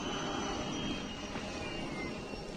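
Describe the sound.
A landspeeder racing above desert sands: a continuous, loud engine drone with a thin, high whine held steady throughout, like a hovering jet-powered craft, with no voices.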